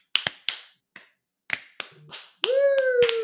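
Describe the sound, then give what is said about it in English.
Sparse, scattered hand claps from a few studio crew members with no audience, a handful of sharp, uneven claps spread thinly across the moment, with a steady sustained tone entering near the end. “so it's just the crew clapping, so it sounds like this.”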